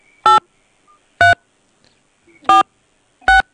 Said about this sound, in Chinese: 本机请按井号键。